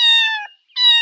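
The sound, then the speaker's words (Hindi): A cat gives two high, clear meows separated by a brief pause, each loud, sustained and harmonically rich. “Cat यानी बिल्ली की आवाज है।”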